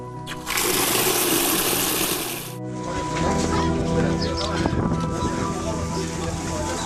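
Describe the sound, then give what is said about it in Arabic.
Water runs from an opened tap in a steady, broad rush, brighter and louder for the first couple of seconds, then continuing a little softer. “أنا بفتح الحنفية على أي مية.”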